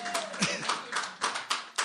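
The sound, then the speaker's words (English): A round of hand claps after a reading of Bible names, a few sharp claps in a quick steady rhythm with a voice briefly audible at the start. “I should get a hand clap just for the names”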